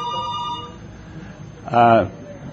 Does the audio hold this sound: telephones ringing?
yes